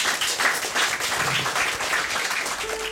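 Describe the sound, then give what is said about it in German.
Audience applause following a short speech of thanks at a cultural event: dense, steady clapping that stays at an even, fairly loud level for the whole three seconds. “Applaus”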